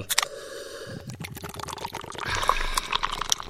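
A drink can is opened and its contents poured, with a few sharp clicks early on followed by a fizzing, trickling stream of liquid that runs to the end.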